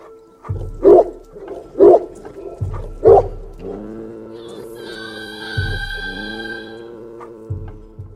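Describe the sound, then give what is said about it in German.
A dog growls in three loud, deep, gruff bursts about a second apart, followed by quieter sustained low tones and a higher tonal layer. “Banga knurrte den Mond an”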